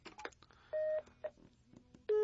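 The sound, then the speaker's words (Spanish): Push-button dialing tones from a telephone being redialed: a few short electronic beeps, each a steady pure pitch, separated by quiet gaps and low background noise. “Sí, sí, voy a volverle a marcar.”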